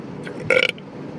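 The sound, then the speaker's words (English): A single short, rough burp bursts out loudly, standing alone over faint background hiss. “According to my scientist wife, burping is a sign of indigestion.”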